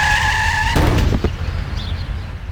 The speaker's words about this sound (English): This is the sound of a child being hit by a car at 40 miles an hour.